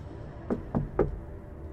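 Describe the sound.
Three thumping knocks on metal come in a quick, slightly uneven sequence over a faint, steady background hum.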